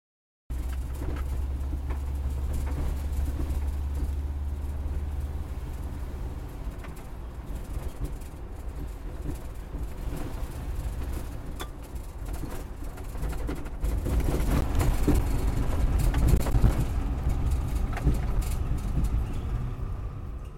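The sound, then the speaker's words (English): Steady low engine drone and road rumble from an orange 1970s vintage Volkswagen Combi microbus, heard riding in the front passenger seat in Melbourne. The noise runs continuously with rattling texture and swells louder in the final third. No voices. “That's the sound of riding shotgun in an orange 1970s vintage Volkswagen Combi.”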